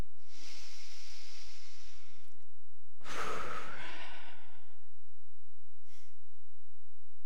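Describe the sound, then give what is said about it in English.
Deep breathing, with a long airy inhale followed by a heavier exhale and one brief breath a little later, soft and with no talk. “So breathe with me, please.”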